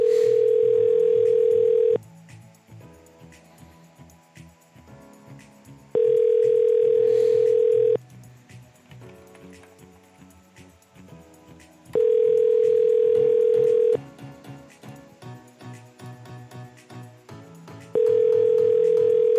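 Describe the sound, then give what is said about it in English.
An outgoing phone call's ringback tone sounds four times, each a steady mid-pitched tone lasting about two seconds, with roughly six seconds between starts. Quieter, busier background sound fills the gaps. “It's ringing now.”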